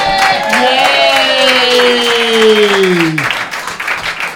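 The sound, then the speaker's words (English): An audience claps for a volunteer called up on stage, with dense, steady applause throughout and a long falling tonal whoop riding over the clapping. “Give it up for this guy.”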